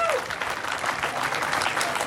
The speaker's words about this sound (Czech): Ano, zaslouží si to potlesk.